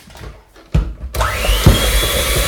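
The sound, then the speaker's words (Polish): Electric mixer running at low speed, blending flour mixed with baking powder into a batter: a steady, loud motor whir that starts partway in and continues evenly, with a couple of dull bumps. “Teraz dodaję drugą, trzecią część mąki wymieszanej z proszkiem. I to samo, rozpoczynam miksowanie na wolnych obrotach.”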